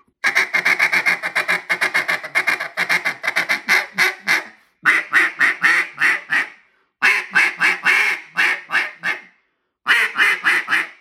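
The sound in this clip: A duck call blown as a loud feed call gives rapid, raspy quacking chatter in four bursts separated by brief pauses, each burst a fast run of sharp, loud notes.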